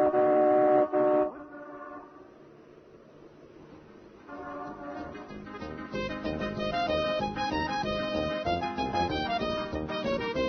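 A car horn gives one loud, steady honk lasting about a second as a car full of passengers sets off. A lower rumble and busier tonal sounds follow and grow louder.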